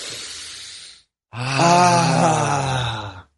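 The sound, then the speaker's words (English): A deep breath taken to clear the mind: a long, airy inhale, a brief pause, then a longer voiced exhale that ends in a low sighing groan. “All right, let's take a breath to clear our mind.”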